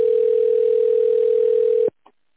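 A steady, loud single-pitch telephone line tone holds for almost two seconds while a call connects to an operator, then cuts off abruptly into near silence with a faint click.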